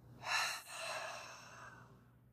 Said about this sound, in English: I want you to take a big deep breath in and a big deep breath out.